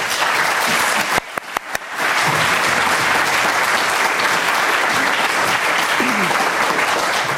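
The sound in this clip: An audience applauds to welcome a guest speaker, loud and steady clapping throughout, with a few sharp clicks briefly cutting through early on.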